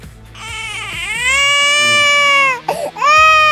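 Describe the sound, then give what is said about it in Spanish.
A baby cries in a loud, sustained wail with strong, high harmonics. The cry breaks off briefly near the end, then resumes just as loudly, with no other voices. “¿Por qué lloras, bebé? Así que, ¿por qué llora el niño?”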